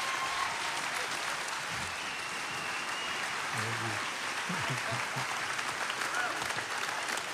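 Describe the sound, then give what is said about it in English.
Faint audience applause at a church conference: steady, even clapping held at a low level, with a few voices murmuring underneath. “Let's give Jesus a bigger hand than that.”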